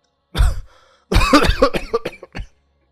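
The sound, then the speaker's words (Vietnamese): An old man's long, hacking cough: one short burst, a brief pause, then a drawn-out rattling run of many rough coughs that trails off. “Ông cụ ho một tràng rút ruột rồi nói.”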